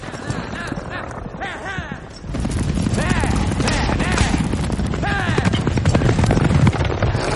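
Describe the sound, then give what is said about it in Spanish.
A chariot overturns on a curve during a race in ancient Rome: galloping hooves and a rumbling clatter swell abruptly into a loud, dense din after about two seconds, with shouting voices throughout. “El carro vuelca en una curva.”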